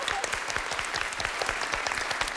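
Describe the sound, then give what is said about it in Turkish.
Studio audience applause on a Turkish quiz show, many hands clapping in a brisk, dense patter that stays steady and fairly soft from start to finish. “Çok teşekkür ederim. Çok yardımcı oldunuz. Alkışlıyorum.”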